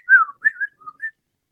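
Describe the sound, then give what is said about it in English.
A person whistles to imitate a quick whistle: a few short, clear whistled notes in fast succession, the first sliding downward, with silence afterward. “I heard like just a quick whistle, like a,”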